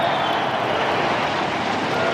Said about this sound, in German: Über dem Stadion fliegen Düsenjets.